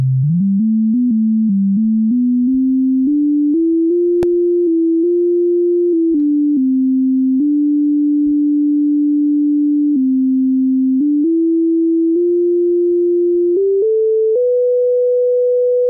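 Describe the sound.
Steady electronic sine tone from the Seeing AI app's light detector, stepping up in pitch with a few brief dips and ending at its highest level. Continuous and loud, with no talk.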